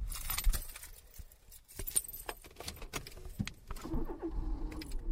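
Keys jangle and click in a quick, bright run, then a car engine starts up and settles into a low, steady rumble for the final second, all before a drive to university.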